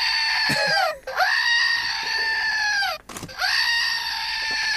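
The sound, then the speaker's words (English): A screaming goat sound effect gives three long, loud, strained, harmonic bleats with brief breaks between them. Each cry swoops at its start and end, heard alone without talk. “Is the screaming goat a good sound effect for Easter?”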